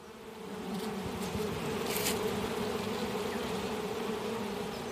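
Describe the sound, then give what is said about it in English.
Bees buzz around an open beehive at a beekeeping club day in Wellington, New Zealand, a continuous dense droning hum that holds steady throughout with no talk. “It's a club day for the Wellington Beekeepers Association, and about a dozen would-be apiarists are getting an up-close look at a hive, some of them for the very first time.”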